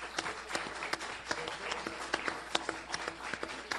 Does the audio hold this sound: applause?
yes